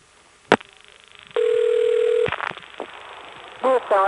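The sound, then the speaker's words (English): Telephone call connecting on a 1-plus trunk with NX1 pulsing: a sharp click, then a steady tone lasting about a second, followed by scattered soft clicks and a pair of short warbling tones at the end. “trunks are distinct by the fact that they let you hear the NX1 pulsing sounds. Here's connecting to the recording on the EAS trunk. And here's what it sounded like when we did it on the 1-plus trunk.”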